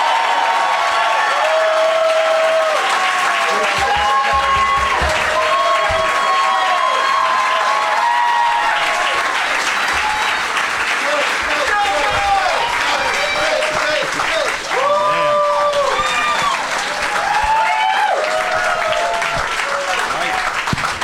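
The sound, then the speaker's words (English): Audience applause and cheering welcoming guests at a live show. Loud, sustained clapping with whoops and shouts runs without a break, with voices calling over it. “And let's please give a big welcome to all of them.”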